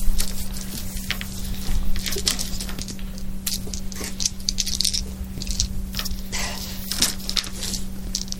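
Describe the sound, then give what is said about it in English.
Dice being shaken and rolled for a tabletop role-playing game, with many quick, dense rattling clicks that run on without pause over a steady low hum, and no voices. “I gotta make sure I get the right color dice.”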